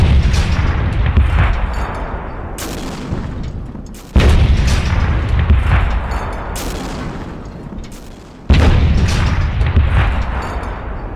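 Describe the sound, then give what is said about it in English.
Artillery fire from British gun teams during a battle at Helles: heavy booms roughly every four seconds, each trailing off in a long, loud rolling rumble before the next blast hits. “to give you an idea of how much artillery fire we're talking about”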